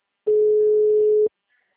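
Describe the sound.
A telephone ringback tone sounds while calling someone: one steady, mid-pitched beep lasting about a second, then silence.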